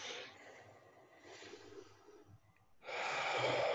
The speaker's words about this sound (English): and then taking another deep breath